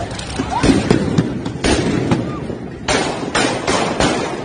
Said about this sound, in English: Shit, they shooting guns at him. Real guns.